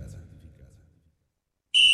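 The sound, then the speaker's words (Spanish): A referee's whistle starts a World Cup football match: one loud, shrill, steady blast that comes after a brief low murmur and a short pause. “Pita el árbitro y arranca tu mundial.”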